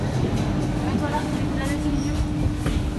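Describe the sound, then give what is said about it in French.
A metro train carriage gives off a loud, steady rumble while passengers sit inside, with voices talking over the constant noise. “un instant intermède technique. On est assis dans le métro.”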